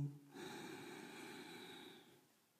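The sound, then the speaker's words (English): A slow, deep breath drawn in during a guided relaxation exercise: one soft, steady, airy inhale lasting about two seconds that tapers off quietly at the end. “And breathe out. And let's just take another slow, deep breath in.”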